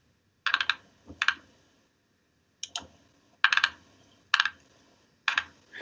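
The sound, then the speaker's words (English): Clicking from a computer mouse scroll wheel that needs oiling, heard as several short bursts of crisp ticking separated by brief pauses, with no talking. “It's not typing. I'm using the scroll on the mouse.”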